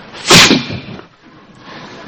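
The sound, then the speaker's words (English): A hunter's bow looses an arrow: one sharp, whip-like swish cracks out near the start, then fades into faint, low noise. “He shot an arrow right into the body of the male bird.”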